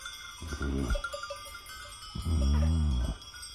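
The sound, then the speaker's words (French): Sheep bleating as a ram leads the flock out to pasture: two wavering bleats, the second longer and louder, over a steady, faint bell-like ringing. “En route, mon beau bélier. Conduis toutes les bêtes au pâturage moelleux.”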